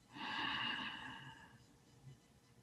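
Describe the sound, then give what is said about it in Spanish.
A single deep breath during a guided breathing exercise: a soft, airy rush that swells for about a second and a half, then fades. It is quiet and heard alone. “Respiremos otra vez.”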